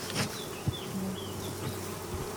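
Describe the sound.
Honeybees buzzing at a beehive, a steady, low, even hum of many insects that runs through the whole clip without voices.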